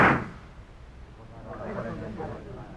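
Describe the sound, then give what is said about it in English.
A pistol shot fired in a duel cracks out as one sharp, loud burst at the very start, then fades into quieter voices speaking. “Gentlemen, not even the most strict interpretation of the code requires you fire a third shot.”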